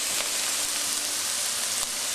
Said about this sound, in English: Just make sure your frying pan is hot. Add my onions because you want your onions sauteed a little bit before you add any of the other ingredients. And also the garlic.